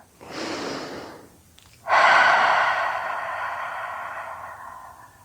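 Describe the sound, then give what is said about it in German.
A deep breath during a guided meditation: a slow, breathy intake followed, after a short pause, by a longer and louder exhale that trails off gradually. “Atme nochmal ganz tief und vollständig ein und aus.”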